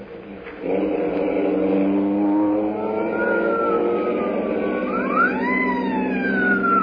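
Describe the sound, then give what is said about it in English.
A car engine roaring under hard acceleration with the accelerator floored, a sustained loud droning tone that holds steady with a strained edge, plus a brief higher whine near the end. “I'll turn off my lights. I have the accelerator on the floor.”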